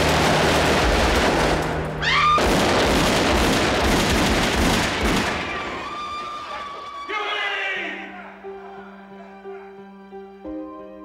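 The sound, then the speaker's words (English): Gunfire from Huey Long's bodyguards shooting Dr. Carl Austin Weiss, more than 60 shots: a dense, loud barrage of shots and commotion for about five seconds, then it thins out into fading ringing tones. “Dr. Carl Austin Weiss was killed instantly, shot more than 60 times by Long's bodyguards.”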